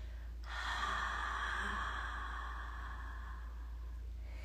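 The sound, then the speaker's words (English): A slow exhale through an open mouth with the jaw dropped during a guided breathing exercise, heard as one soft, steady, breathy rush lasting about three seconds, with no talk over it. “let's take this next exhale out and open mouth, drop the jaw.”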